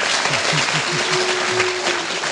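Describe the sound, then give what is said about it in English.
Studio audience clapping to vote on an extra point in a radio panel word game: dense, even applause that holds at a steady loud level throughout. “Think Derek Nimmo should have an extra point for that? Clap if you think so.”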